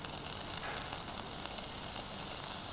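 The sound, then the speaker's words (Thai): Ingredients stir-fry in thick coconut cream, cooked until reddish oil separates. A soft, continuous sizzle and fine crackle stays steady and faint throughout, with no voices. “เราจะผัดกับหัวกะทิเพื่อให้น้ำมันมันออกมาเป็นสีแดงๆหน่อยนึงนะคะ”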